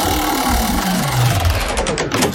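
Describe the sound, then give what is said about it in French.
Rapid ratcheting clicks of a game-show wheel being spun to pick the next game. The clicks run dense and fast at first, then space out as the wheel slows, with a steady mechanical whir underneath. “on tourne la roue pour choisir notre jeu”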